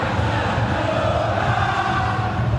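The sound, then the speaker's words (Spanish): Football stadium crowd during a match: a dense, steady roar of many voices at an even level, with no single shout or chant standing out. “Escuchen al público. Escuchen al público. El público es soberano.”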